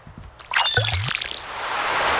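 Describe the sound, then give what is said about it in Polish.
Water fills a watering can in the Stardew Valley video game: a squishy splash, then a steady stream of pouring water that swells into a sustained hiss. “O, konewka, no. Nie no, słonej wody, to chyba może jest to, może niekoniecznie. Ale do podlewania czemu by nie napełnić. Wciskamy literę C.”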